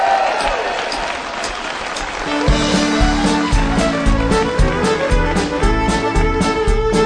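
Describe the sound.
A crowd applauds to welcome a country singer onstage. The clapping is loud and steady, and about a third of the way in a band kicks in with a rhythmic beat and bass, while the applause carries on underneath.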